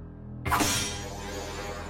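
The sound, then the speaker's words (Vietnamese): A single sharp metallic crash as an ancient sword strikes a metal seal, bursting in suddenly and then ringing on with a bright, fading clang for well over a second. “Đứng trước bàn hương án, tay cầm kiếm cổ, thầy Bản chém từng nhát vào cái ấn trồng.”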